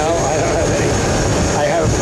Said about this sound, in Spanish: No se escucha bien por el sonido del avión